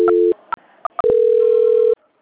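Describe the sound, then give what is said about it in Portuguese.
Telephone line tones sound during a call transfer: a short steady mid-pitched tone, a few quick beeps, then a longer unbroken tone of nearly a second that cuts off abruptly. No one speaks. “Eu vou ligar de novo. Ou eu vou transferir de novo, só um instante.”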